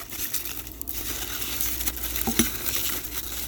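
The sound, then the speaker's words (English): Crinkling foil as cooked food is wrapped beside a coal grill: a steady, crackly rustle with a few sharper clicks near the end. “These are done. Wrap them in foil.”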